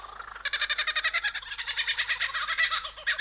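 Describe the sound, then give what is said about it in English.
Song of a male lyrebird showing off to attract a mate: bright, rapid rhythmic pulsing phrases, a fast run of repeated notes flowing into a steady looping pattern of warbled calls. “eavesdropping as a male lyrebird starts showing off to attract a potential mate.”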